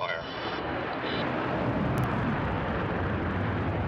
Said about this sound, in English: Once at altitude, Unity was drop-launched and then quickly accelerated to more than 3 times the speed of sound on a suborbital trajectory. 3, 2, 1, release, release, release. Fire.